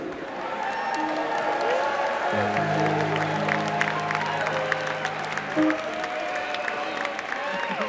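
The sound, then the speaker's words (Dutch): Audience applause with some cheering at an evening open house event, honouring its longtime coordinator. Dense, crackling clapping continues throughout, and a steady low sustained tone sounds through the middle stretch. “Dus er is één iemand die het allergrootste applaus van de avond verdient.”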